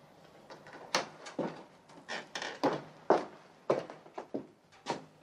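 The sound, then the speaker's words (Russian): A door opens as a man comes in from a garden, heard as many irregular wooden knocks, bumps and clatters, fairly faint and spread across the whole stretch. “В двери из сада входит мужчина, это граф.”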